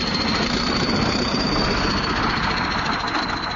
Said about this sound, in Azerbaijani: Yük maşınlarından boşaldılan zibillərdən əmələ gəlmiş təpəcikləri traktorlar əzib hamarlayır.